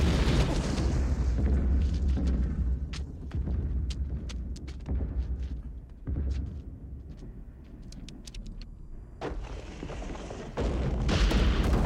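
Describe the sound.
Booming blasts and heavy rumble as a photon torpedo fired from a starship explodes, a science-fiction film effect: a loud, continuous roar punctuated by many sharp bursts throughout.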